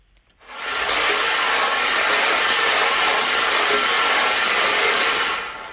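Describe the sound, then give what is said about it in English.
Balls tumble and rattle inside a spinning lottery drum, a steady, dense whirring clatter that starts abruptly, holds at an even loudness for about five seconds, then eases off at the end, with no talking. “are you ready for us to spin those balls?”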